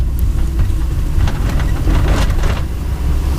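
A car driving up, a steady low engine rumble under a broad hiss of road noise that continues without a break.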